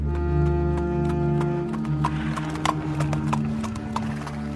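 Hooves of a saddled donkey clip-clop steadily as it is ridden, a run of many sharp knocks over a sustained low droning tone.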